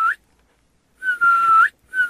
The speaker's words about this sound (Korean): 하, 시동이 휘파람으로 경고를 하는구나.